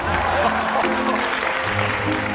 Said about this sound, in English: The captain applauds.